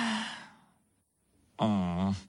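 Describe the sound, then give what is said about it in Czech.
A girl yawning: a soft breathy exhale fades into near silence, then a loud, drawn-out voiced yawn fills the final second. “Dobře, řekla Miška a zívla.”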